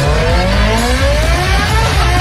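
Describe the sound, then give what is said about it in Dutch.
Racing engines roar loudly and continuously during the TT race event, their droning pitch climbing steadily as they accelerate, with no talk over them. “Ronkende motoren, knallende feesten, de TT is in volle gang.”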